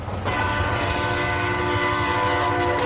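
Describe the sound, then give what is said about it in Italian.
Express passenger train, the Rapido 904, roaring through a small station in Tuscany: a loud, sustained rumble with steady horn-like tones that bursts in after a brief quiet moment and holds without letup. “Poco dopo le 19, il Rapido 904 oltrepassa la stazione di Vernio in Toscana.”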